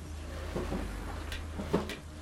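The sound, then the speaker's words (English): A door being opened, heard as a couple of soft clunks and rattles over a steady low hum, with a sharper knock near the end. “You can open the door now, you're safe.”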